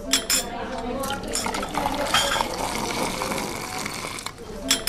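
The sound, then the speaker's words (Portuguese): A porcelain teacup is set down on a table at a tea service, with a few crisp china clinks and light clatter. Voices and soft background noise carry on underneath. “Pousamos a chávena, pegamos no copo.”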